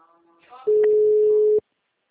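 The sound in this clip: A telephone busy tone sounds after a dropped call: one loud, steady, mid-pitched electronic tone holding for just under a second, preceded by a faint stretch of muffled voice and line noise.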